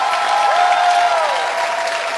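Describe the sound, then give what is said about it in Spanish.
Applause from a church audience at a worship service, a steady wash of clapping that holds throughout, with a sustained musical tone audible over it. “oh, a quien aplaudimos con lo mejor.”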